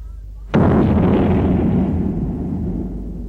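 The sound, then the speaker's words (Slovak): One loud cannon shot booms with a sharp onset. A long, rumbling decay fades slowly over the next few seconds, with no voices. “Znovu nabiť dielo.”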